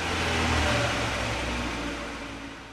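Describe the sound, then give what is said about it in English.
A vehicle engine dies as it runs out of gas, a steady mid-pitched motor drone that fades away gradually over a few seconds. “Hey, why are we stopped? We didn't reach the end of the 4th finger yet. We're out of gas.”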